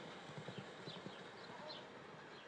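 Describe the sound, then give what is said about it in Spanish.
Hooves of an 11-year-old show jumping mare striding toward an obstacle give a few soft, muffled thuds early on, faint against a steady background noise that continues after the hoofbeats fade. “Fíjense cómo avanza esta yegua, ha dado 5 trancos al obstáculo”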